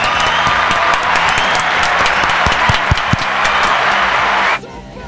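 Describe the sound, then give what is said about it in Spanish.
Applause for the winners of a festival float contest in Burgos: a dense, steady wash of many hands clapping that holds its level and then cuts off abruptly just before the end. “Y para ellos, pues un reconocimiento y un aplauso también bien fuerte de la Peña Heavy de Burgos, ¿no?”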